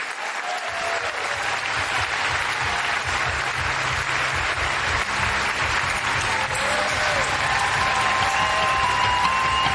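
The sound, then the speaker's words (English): An audience applauds to welcome a speaker to the stage, with dense, steady clapping that holds loud and even for about ten seconds. “Ladies and gentlemen, it is my honor to welcome to the stage the Vernon Jordan Distinguished Professor in Civil Rights, the founder of the 14th Amendment Center for Law and Democracy at Howard Law School. Please give it up for Sherrilyn Ifill.”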